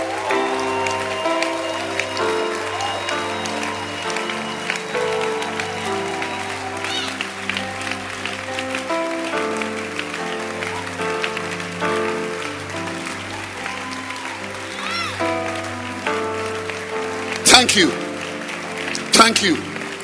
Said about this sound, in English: Clap. Let's celebrate it. Those online, I welcome you. Clap for the word of God.